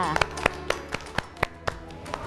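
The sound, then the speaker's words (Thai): Children clapping their hands in a classroom, a steady, evenly spaced run of many sharp claps, with voices present alongside. “เด็กๆปรบมือให้ตัวเองด้วยค่ะ”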